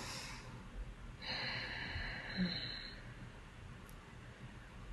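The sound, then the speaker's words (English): Breathing drawn deeply in and out through the nose, a soft, airy, hissing rush that swells for about two seconds and then fades, faint against a quiet background. “people may want to take a nice deep breath in through their nose and out through their nose. Just join join me with that.”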